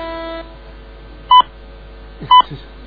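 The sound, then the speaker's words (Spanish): Two short, clear electronic phone beeps about a second apart announce an incoming call, following a faint steady tone at the start. “Ya voy, me está llamando mi novio.”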